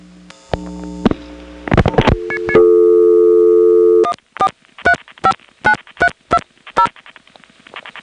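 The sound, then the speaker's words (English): A telephone exchange sends a reorder tone over a wire trunk: a rapid string of short, even, two-tone pulses at fast-busy pace. Loud clicks and steady tones come before it. “At the end of the recording, there's a reorder tone which is coming from the northwest building, and it's going to sound really good because it's on a wire trunk rather than T-carrier.”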